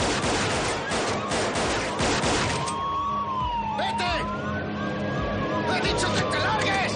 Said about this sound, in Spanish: Danny sale del coche y les dispara.